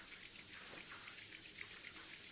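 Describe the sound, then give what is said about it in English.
Hands rub together briskly: faint, steady swishing strokes of skin on skin in an even back-and-forth rhythm, with no speech. “And take your hands and rub them.”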